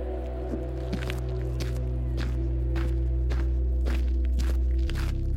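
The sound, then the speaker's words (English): Boots walking across sand in a ring, a steady series of soft, dull footsteps over a continuous low droning hum. “His boots across the sand. Each step louder than the last in my ears.”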